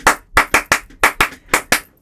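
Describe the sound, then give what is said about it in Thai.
Eight sharp hand claps ring out alone in a brisk, cheer-style rhythm, spaced in loose pairs with short pauses between. “ปรบมือให้เลยนะเก่งมาก อ่ะตบ ปรบมือเย้วู้ฮู้”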